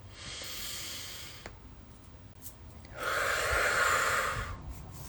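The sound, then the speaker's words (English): A deep breath taken at the start of a spoken prayer: two long, soft, breathy rushes of air, the second fuller and louder than the first, with no talking. “I'm going to start by taking a deep breath.”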